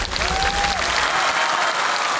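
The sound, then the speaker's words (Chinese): Loud applause from a crowd at a traditional Yao blade-ladder climbing performance, after a barefoot climber shows his uninjured feet: a thick, steady roar of clapping across the whole clip. “掌声送给吴大哥”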